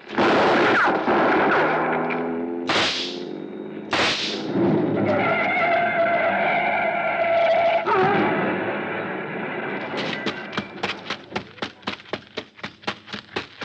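Gunshots are fired at a man climbing into a car in dim light. A few sharp, loud bangs stand out early, over a sustained tonal backdrop, and a quicker run of short, regular cracks follows near the end.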